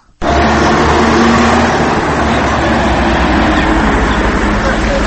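Light street traffic in the central streets of Osh, a dense, steady roar of car and heavy vehicle engines that cuts in abruptly and holds at an even, fairly loud level for about five seconds.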